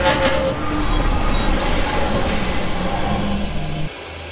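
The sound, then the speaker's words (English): A steam locomotive brakes with shrill, sustained wheel squeals over a dense metallic rumble. The squeals hold several high tones, and the loudness drops abruptly just before the end. “Engineer, lay off the steam and start braking.”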